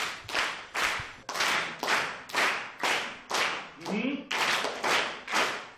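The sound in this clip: A school class claps hands together in unison, producing many loud, evenly spaced claps in a steady rhythm. A brief voice is heard midway.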